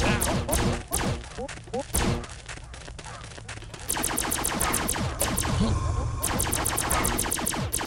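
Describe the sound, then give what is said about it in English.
Rapid gunfire from a video game character shooting while crouched on a lava lake level: many sharp shots in quick clusters, loud and dense, over a busy layer of other game sounds. “And you can shoot while you're ducked, which is interesting.”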